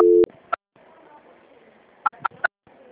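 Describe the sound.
A telephone tone while a call is being transferred: one short, steady beep, followed by a few sharp clicks over faint line hiss.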